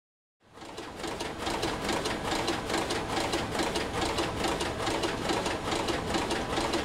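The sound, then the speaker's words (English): An automated knitting machine producing a sweater in a knitwear factory runs as a steady, rapid mechanical clatter. The dense rhythmic chatter starts abruptly and continues at an even, loud level throughout. “That's the sound of what it takes to compete against China. It's an automated knitting machine that looks like it's printing out a sweater.”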